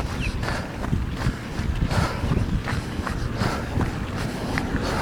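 Footsteps of many runners passing along a route: a steady stream of many quick, light footfalls with an even rhythm, heard alone without talk.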